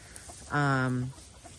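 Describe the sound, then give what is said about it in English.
A hen gives a single drawn-out, rooster-like call, a steady, strongly harmonic squawk lasting about half a second against a quiet background. “So I'm letting the chickens have at it so they can do their thing. And not sure what that was all about. You're not a rooster.”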